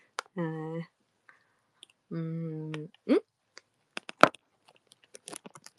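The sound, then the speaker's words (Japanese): Crunching of Frugra granola cereal being eaten: several crisp, brief crunches and clicks in the second half, scattered and irregular, after two longer sustained voiced tones. “ちょっと4時間しか寝てないんでですね、ちょっとフルグラを食べます。”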